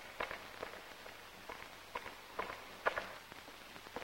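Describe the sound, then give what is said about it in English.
High-heeled footsteps of two women on a sidewalk along a stone wall at night: quiet, brisk clicking steps in a steady, fairly even rhythm. “Irena follows seconds later, her steps brisk. Wearing high heels, the two ladies tread in and out of darkness.”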